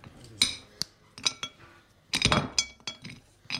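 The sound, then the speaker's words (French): Chocolate being broken into pieces for a microwave recipe: a few sharp, dry snaps and clicks with quiet gaps between them, and no talking. “Ben, on commence par casser donc le chocolat en morceaux.”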